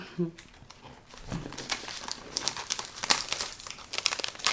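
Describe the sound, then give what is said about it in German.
Plastic film crinkling as it is handled during wrapping, with many irregular crackly rustles and sharp snaps of varying loudness running throughout. “Folie an Folie, das ist immer so. Sehr gut. Das pappt immer besonders.”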